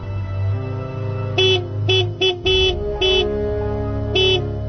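A car horn honks in a series of short blasts and one longer one at night, loud, bright and tonal over a continuous low engine hum, with pauses between the honks.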